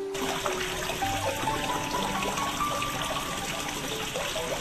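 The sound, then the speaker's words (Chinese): Water trickles steadily in a small courtyard beside an artist's studio, a soft, continuous, even gurgle with no breaks. “闹市中一年四季听到潺潺的流水声，还真是很惬意的呢。”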